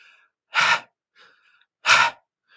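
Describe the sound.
A voice imitates tense, strained breathing with two short, sharp, airy breaths about a second apart, alone with only faint sounds between them.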